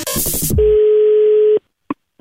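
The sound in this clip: A single steady ringing tone plays on the phone line as a call is placed, holding for about a second after a short burst of noisy sound. Two brief, faint clicks follow.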